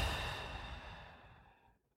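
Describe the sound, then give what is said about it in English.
Long exhale during a guided breathing exercise, a soft breathy rush that gradually tapers away to silence over nearly two seconds, with no voices. “Take another deep breath in and long breath out.”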